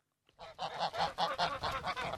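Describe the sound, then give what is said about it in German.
A flock of twelve geese honks and cackles on a snowy pasture on a flat moor in the Upper Engadine, a continuous run of overlapping nasal calls after a brief silent start. “weidet im Oberengadin seit diesem Sommer eine Gänseherde. Sie sorgt auf einem Flachmoor für den perfekten Schnitt”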